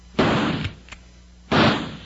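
Rifle shots fired into bushes as a radio drama effect: two loud, sharp blasts about a second and a half apart, with fainter cracks in between.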